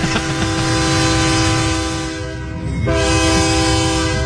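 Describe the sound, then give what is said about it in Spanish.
A horn blast sounds again, loud and sustained with a rich, chord-like tone. It dips briefly midway, then returns at full strength. “Pítele otra vez, que le toque el pito otra vez.”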